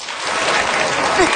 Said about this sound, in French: Alors, par applaudissement, qui aimerait ici pouvoir hiberner de septembre à juin?